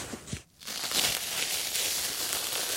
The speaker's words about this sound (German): Ich reiß ihn jetzt hier raus, weil ich natürlich einen guten Ausgangspunkt schaffen möchte